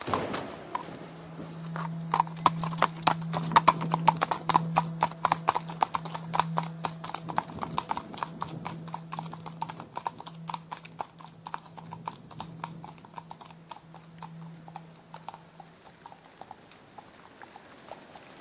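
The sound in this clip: Horses' hooves clip-clop steadily as several riders and farmhands ride home after a day's work. Many sharp, evenly spaced hoof beats run continuously throughout, with no voices.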